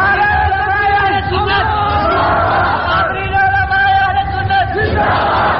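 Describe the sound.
A crowd chants slogans in unison at a Sunni religious rally. The voices are loud, sustained and overlapping, and the raised chant rolls on continuously throughout.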